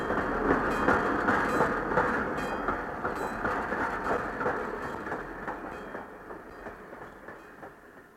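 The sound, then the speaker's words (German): Steam train puffing as it pulls out of a station hall: dense, rumbling rail noise with a rapid rhythmic chuff and clatter, steady at first and then slowly fading. “als der Zug aus der Bahnhofshalle fuhr und mitten in die Weihnachtsferien hineinschnaufte”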